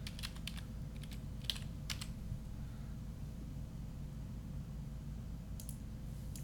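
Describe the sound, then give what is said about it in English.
Faint typing on a computer keyboard, a few short bursts of quick clicks separated by pauses, over a steady low hum. “Hang on. I'll type in men's singles.”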